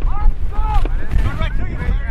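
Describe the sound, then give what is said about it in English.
Wind blows across an outdoor sports field, a steady low rumble buffeting throughout under several shouted voices. “The wind's against him.”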